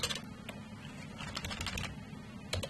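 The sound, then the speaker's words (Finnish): Faint computer keyboard key presses, including the F5 key: several soft, scattered clicks over a quiet background. “Eli nyt jos mä täällä vähän possauttelen ja sitten paina se F5, niin se palaa silloin tuohon alkutilanteeseen.”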